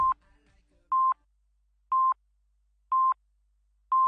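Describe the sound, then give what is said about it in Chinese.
Telephone call tone: a steady series of short, even electronic beeps at a single mid pitch, repeating about once per second with silence between them, and no voices. “电话嚟啊！”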